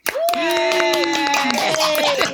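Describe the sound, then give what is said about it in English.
Audience clapping and cheering to welcome a guest's introduction, with dense, steady applause throughout and sustained voices crying out over it. “Everybody, put your hands together for Precious Chong.”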